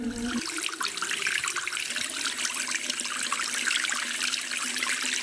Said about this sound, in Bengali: আমি তো প্লেট পরিষ্কার করছি। প্লেট পরিষ্কার করছেন নাকি পানি অপচয় করছেন?